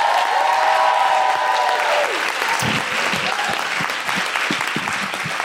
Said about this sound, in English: Please put your hands together and welcome the very funny Deborah Frances White.